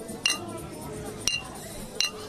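Glasses clink together in a toast, three sharp, bright chimes spaced about a second apart, each with a short ringing tail over low background noise.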